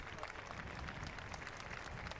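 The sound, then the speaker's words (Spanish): Crowd applause greeting the Pope in the Plaza del Cristo in La Laguna, Tenerife: faint, dense, continuous clapping from many people that holds an even level throughout with no voices over it. “El Santo Padre ha recibido con estos aplausos aquí en la Plaza del Cristo de la Laguna de Tenerife.”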